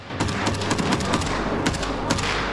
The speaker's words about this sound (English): I hear shooting on the right side. They fire into the darkness.